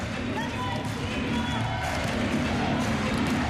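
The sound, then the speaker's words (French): French supporters cheering in the crowd at a women's France versus Italy match: a sustained, dense roar of many voices that stays loud throughout, with a commentator talking over it. “les Bleus du public qui se font entendre, ça fait du bien ça.”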